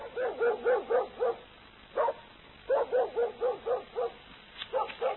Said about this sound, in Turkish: Bu uyuz köpekte, koca Tebriz'de hiç yer yokmuş gibi hep benim evin önünü bulur.